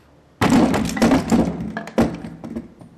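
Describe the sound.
A locked flat door being forced open: a loud, heavy impact with a crunching rattle that fades, then a second sharp bang.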